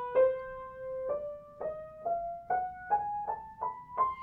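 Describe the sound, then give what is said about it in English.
An octatonic scale starting on C rises step by step as a run of clear, sustained single notes, with the first note held longest and later notes coming faster, each ringing with bright overtones and no talking. “So in an octatonic scale starting on C, sounds like this.”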